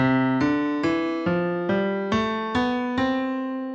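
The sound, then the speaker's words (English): Notes of a C major scale sound one after another: eight clear, evenly spaced tones, each a little under half a second long. Every tone rings and decays before the next one is struck, played alone at moderate loudness. “What you just heard are the seven notes that make up a C major scale.”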